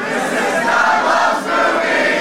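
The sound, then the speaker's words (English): A live show audience at the Firebird in St. Louis, Missouri, sings loudly together. The crowd voices form a dense, sustained roar that dips briefly midway and then swells again. “That was much better than the clapping. The clapping needs some work, but you guys, you got pipes. You can totally sing.”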